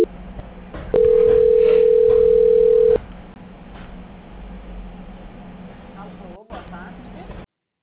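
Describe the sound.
A telephone call transfer tone: one loud, steady tone lasting about two seconds rises above continuous phone-line hiss, and the hiss carries on after the tone stops.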